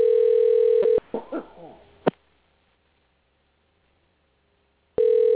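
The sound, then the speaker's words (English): A telephone ringback tone sounds through the call line as a steady, mid-pitched electronic tone. One burst ends near the start, a quiet gap with brief rustling follows, and a second burst begins at the end. “And you will hear the ring, folks.”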